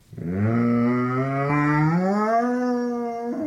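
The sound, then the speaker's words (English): A basset hound lets out one long, loud howl that starts low and slowly rises in pitch, holding a rich, mournful tone for about three seconds before cutting off abruptly. “It's a basset hound.”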